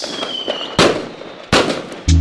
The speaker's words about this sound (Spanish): Que suenen los cohetes.